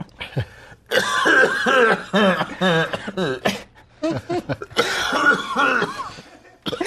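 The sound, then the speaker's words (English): Forceful, explosive exhales burst out in short, rough puffs, mixed with cough-like breaths and voiced sounds in uneven bursts. “That was such an explosive exhale.”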